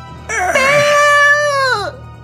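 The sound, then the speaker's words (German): A single drawn-out wailing cry of someone weeping, loud and strongly voiced, holding a steady pitch for over a second before dropping and breaking off. “Patsy lief eilig die Treppe nach unten. Jemand weinte.”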